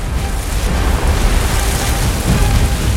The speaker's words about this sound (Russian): Глубинные заряды взрываются в воде, поднимая на поверхности фонтаны брызг.